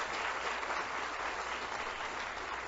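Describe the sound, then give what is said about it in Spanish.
Applause from the audience at a public works ceremony, thanking the ministry team and the contractors present. Dense, steady clapping fills the whole clip at an even level with no talk over it. “A los contratistas también que están aquí presentes, un aplauso a ellos”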